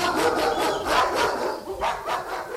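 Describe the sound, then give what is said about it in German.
Several dogs bark aggressively in a radio drama, set on someone at an uncle's house. The barks come as many rapid, overlapping bursts at a steady loud level, with no talk. “die Treppen des Onkels hinunterhastend, die geifernden, bellenden Biester im Rücken”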